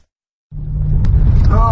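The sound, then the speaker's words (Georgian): A car rumbles loudly as it drives on a rough rural road where a wheel drops into a ditch. The deep, steady rumble starts abruptly after half a second of silence, and a voice briefly joins near the end. “როცა მისი ავტომობილის ბორბალი მორიგ თხრილში ვარდება.”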